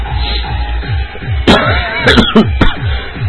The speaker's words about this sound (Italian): oggi tossirò molto e devo parlare poco alla fine